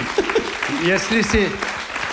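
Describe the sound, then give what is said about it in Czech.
Applause from a theatre audience, a dense patter of clapping that runs throughout while a voice talks over it. “jestli si zatloužím tak dlouhý potlesk.”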